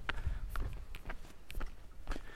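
Footsteps of a person walking on a forest trail in the woods, a steady series of soft, crunching steps at an unhurried walking pace, fairly faint.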